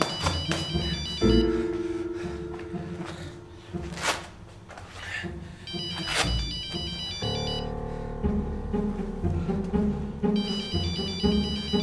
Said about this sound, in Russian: Ему звонит телефон.